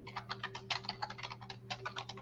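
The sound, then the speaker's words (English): Someone types a name on a computer keyboard: many quick, crisp keystrokes in uneven bursts, fairly quiet, over a steady low electrical hum. “Let me just type in Jordan.”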